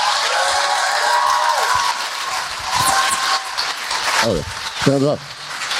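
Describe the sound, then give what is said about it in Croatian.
Audience applause at the close of a lecture as people rise to their feet: dense, steady clapping under voices and calls throughout. “Dame i gospodo, nastavite ovaj aplauz. Vidim da se ljudi ustaju.”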